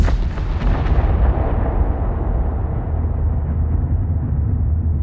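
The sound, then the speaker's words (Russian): A distant muffled explosion: a broad blast that rolls into a loud, sustained low rumble while the brighter upper tones fade away over several seconds. “Вслед за далеким приглушенным взрывом по воздуху пронеслась мощная ударная волна.”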